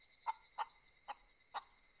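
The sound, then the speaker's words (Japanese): Restless chirping from a bird: four short, sharp calls at a quick, fairly even pace, faint over a steady background hiss. “お主のように不細工な鳥は見たことがないぞ。そのように気ぜわしいさえずりでは売れ残るのも道理というもの。”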